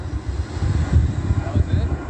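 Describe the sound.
An airplane flies overhead near Ontario International Airport, making a low, steady rumbling roar that rises and falls slightly in loudness throughout.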